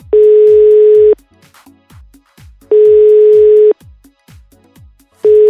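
Ringback tone of an outgoing phone call: a steady mid-pitched tone sounds in bursts of about a second with pauses between, three bursts with the last cut off, over faint low knocking pulses.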